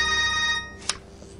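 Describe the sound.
A telephone rings in a film scene with a steady electronic trill. The ring cuts off and is followed by a single short click, then quiet.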